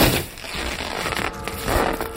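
Harsh fabric ripping as a bloody scythe blade pierces a curtain and slices down through it. The rasping, crunchy tearing is loud and continuous for about two seconds.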